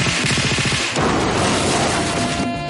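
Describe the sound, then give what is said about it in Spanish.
Gunfire and an explosion faked during a crime film's heist scene: a loud rapid rattle of shots opens, then gives way to a dense, continuous booming wash that stays strong to the end. “Falsean la explosión y los disparos.”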